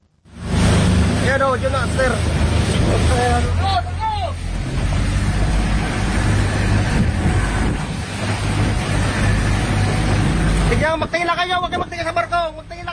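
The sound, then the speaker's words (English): Roaring wind and surf over a steady low engine rumble as a Coast Guard boat approaches a burning passenger ferry near Coron in the Philippines in strong winds. Voices are heard intermittently over the continuous din. “Here's the sound of the Coast Guard approaching the burning ship.”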